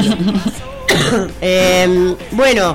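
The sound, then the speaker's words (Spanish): Someone coughs and clears their throat just after a microphone is switched on. Harsh bursts mix with rough voiced sounds, loud and close. “Es prender el micrófono para que me dé tos.”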